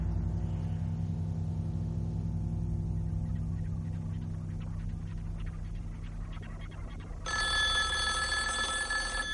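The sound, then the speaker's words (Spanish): A telephone left on a bed in a motel room rings, its bright, steady electronic tone starting near the end and standing out over a long, low, continuous drone. “Suena el teléfono que ha dejado sobre la cama.”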